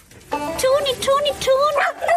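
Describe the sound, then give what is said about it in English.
A small dog howls excitedly in a few short, high-pitched, wavering cries that rise and fall, running almost without a break for about two seconds. “She has this little howl. She gets so excited. Every time I come, she just howls and it's so cute.”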